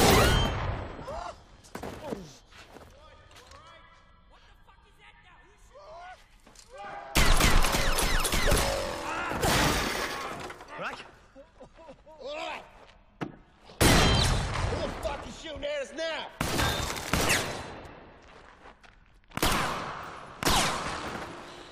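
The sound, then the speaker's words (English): Rifle gunfire from a shootout in the film Free Fire (2017) comes in several loud, crackling bursts of rapid shots. Quieter stretches between the bursts carry sparse single shots and tense talking. “What was that? Sounds like a fucking rifle.”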